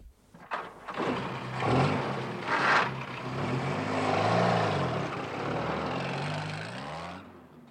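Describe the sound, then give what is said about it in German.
A jeep engine drones steadily as the vehicle drives along a lonely road ahead of a sharp left bend. The rumble is broad and continuous, swelling slightly midway, with no voices. “Unmittelbar vor einer scharfen Linkskurve brachte Tenente Nieda den Jeep zum Stehen und stellte den Motor ab.”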